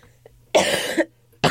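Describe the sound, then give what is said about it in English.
Coughing from a person getting over a cold: one full, harsh, rasping cough, then a second cough that starts abruptly and is cut off at the end, with near silence between them. “So I apologize for the sniffling and the coughing.”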